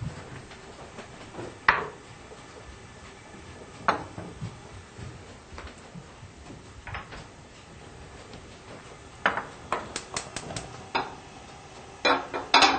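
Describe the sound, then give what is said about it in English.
Metal saute pan set on a stovetop over medium-high heat, heard as scattered faint clanks and clicks of kitchenware over a low, steady background, with a cluster of sharper knocks near the end. “So I'm gonna put the saute pan on a medium-high heat and heat up some olive oil, about 2 tablespoons.”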